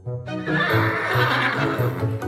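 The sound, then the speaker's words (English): A thin old workhorse neighs in a long, loud whinny that fills the whole moment, its voice wavering and shaking as it goes. “They let him borrow a thin, old workhorse named Gunpowder.”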